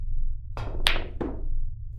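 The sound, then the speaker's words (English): Billiard balls clack together on a combination shot into a corner pocket: three sharp, quiet knocks about a third of a second apart over a low, steady hum. “All right, combo shot. Four ball into the seven and corner pocket.”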